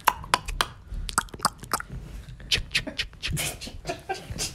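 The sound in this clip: Scratching of a beard for an ASMR recording: many quick, irregular rasping scratches with some sharper, louder bursts, continuing alone without talk.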